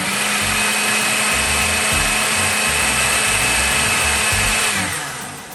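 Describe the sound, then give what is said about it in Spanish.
A food processor blends a thick frozen yogurt mixture with a loud, steady motor whir and grinding, then winds down and fades near the end. “Si ves que está muy espesa, puedes agregar una cucharadita extra de yogurt para darle más movimiento y volver a procesar.”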